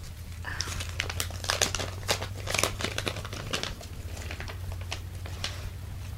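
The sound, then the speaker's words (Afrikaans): Paper crinkles and tears as an envelope is opened, with many quick, crisp rustles and crackles over a low, steady hum. “En dan die koevert.”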